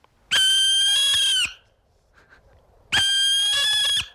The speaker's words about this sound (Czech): To je sova pálená.